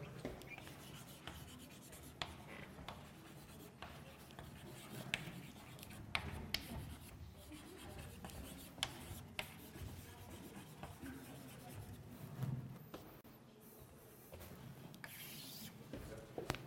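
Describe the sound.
Handwriting during a statistics lesson: scratchy strokes and rubbing, many short irregular bursts, fairly faint, with no talking.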